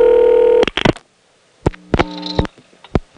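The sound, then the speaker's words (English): An ESS telephone office connects a trunk to a trunk. A steady tone cuts off abruptly into a series of sharp clicks and short tone bursts, separated by gaps of near silence. “On that last call, we heard the ESS sound, which is the sound of a trunk being connected to a trunk, and we heard that twice.”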